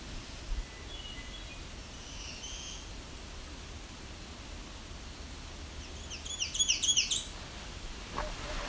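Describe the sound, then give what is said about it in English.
An ovenbird and a myrtle warbler sing on an escarpment: a faint brief phrase, then a brighter burst of quick high chirps near the end, over a steady hiss. “Sounding like there's the ovenbird, and that's the myrtle warbler.”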